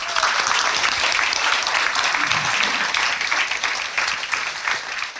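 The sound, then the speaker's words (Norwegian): Audience applause welcomes a guest, a diver and author, onto a stage: dense, loud, continuous clapping that stays even for the whole stretch. “I en stor applaus til mannen som har dratt dit for oss, dykker og forfatter Ronny Arnesen.”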